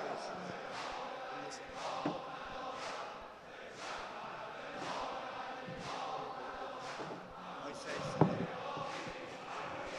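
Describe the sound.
Mourners rhythmically beat their chests in sineh-zani at Imam Sajjad mosque, producing a steady series of heavy, dull thumps beneath chanting voices and crowd noise, fairly faint overall.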